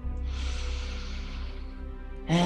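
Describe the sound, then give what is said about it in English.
Breath drawn in during a guided meditation: a long, slow, airy inhale of about two seconds, steady and soft, after which a voice begins speaking. “And we start by focusing on the breath. Inhaling.”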